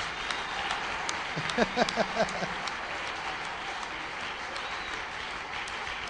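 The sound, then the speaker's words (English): Congregation clapping during a church sermon: a short burst of a few sharp claps midway through, rising briefly above a steady background of room noise. “Those who are not clapping, what is the problem?”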